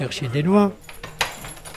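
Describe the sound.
Keys jangle as a 67-year-old man unlocks the door to his small 13-square-metre room, followed by a single sharp metallic click, then quiet.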